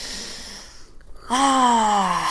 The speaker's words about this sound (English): Let's live in the moment. Let's take a breath.